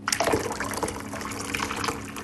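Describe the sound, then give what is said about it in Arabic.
Hot water at 100 degrees Celsius is poured in a continuous splashing stream with a steady, moderately loud wash of liquid. “أولا أسكب الماء البارد، فقط أصغه جيدا. هل سمعتم؟ حان وقت الماء الساخن بدرجة حرارة 100 درجة مئوية.”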